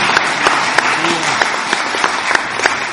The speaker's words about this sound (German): Give God praise for that. Und gib dem Herrn mal einen Applaus.